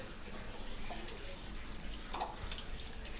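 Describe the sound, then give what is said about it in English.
Mountain spring water runs continuously from a fountain once used for washing clothes, a steady, faint rushing splash with no pauses throughout. “And it's just that water that always runs, I guess, from the mountain, a mountain spring,”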